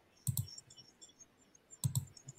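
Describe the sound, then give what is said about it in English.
Faint computer mouse clicks are heard while someone opens a slide presentation and shares it on screen. Two quick bursts of clicking, each a rapid pair of taps, are separated by more than a second of near-silence. “look for PowerPoint, click on the PowerPoint, then click share.”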